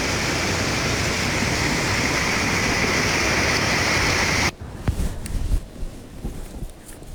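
Heavy rain with water flowing through city streets. A dense, steady hiss and roar holds for about four and a half seconds, then cuts off abruptly to quieter, scattered sounds.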